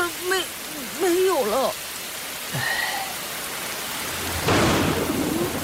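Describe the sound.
Rain falling steadily, a continuous broad hiss throughout. Brief voice-like tones rise and fall over it early on, and a louder rush of noise swells near the end.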